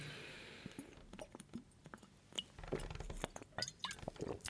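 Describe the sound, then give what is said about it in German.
A drink being sipped: faint wet liquid sounds mixed with small glass clinks and scattered clicks, soft and irregular over a quiet background. “Mal kurz einen Schluck trinken.”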